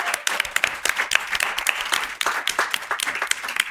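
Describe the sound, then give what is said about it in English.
Brisk applause from a live studio audience for a panel discussion: dense, overlapping claps at a steady loudness throughout. “Let's give it up for the panel, you all, one more time.”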